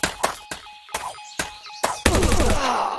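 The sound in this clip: Machine gun fire in a video game: a series of sharp, punchy single shots spaced apart, then a dense, continuous roaring burst of rapid fire that carries on to the end.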